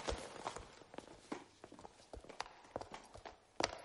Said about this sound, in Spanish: Las patas de su caballo derriban las banderas colocadas en el suelo para delimitar el reparto territorial.